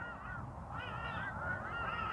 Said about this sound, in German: Du hörst die Vögel im Hintergrund, stimmen mir zu bei dem, was ich sage